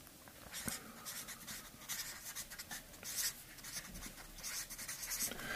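Scratchy writing strokes on a board keep coming in many short, uneven bursts of dry scraping, steady and moderately loud throughout with no voices.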